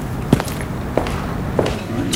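Quiet footsteps climb the front steps of a silent house off an unlit paved courtyard: three soft, evenly spaced thuds with no voices.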